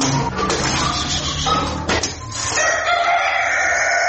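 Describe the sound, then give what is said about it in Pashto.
Domestic chickens clucking and a rooster crowing in a small household flock in Uruzgan province, Afghanistan. Overlapping calls fill the whole stretch and stay fairly loud. “د سهار و بجې شپږویشت کلن نوراغا په خپل کور کې د کورنیو چرګانو په پالنه بوخت دي.”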